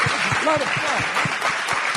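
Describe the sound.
Applause for Fred Willard at the end of a live show, brief clapping mixed with voices calling out over it.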